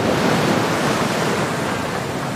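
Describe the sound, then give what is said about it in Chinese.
Strong wind blowing over the sea off southern Australia, a steady, loud rushing roar of air and surf with no breaks or lulls across the whole clip and no voices. “在澳大利亚南部海域，狂风肆虐。”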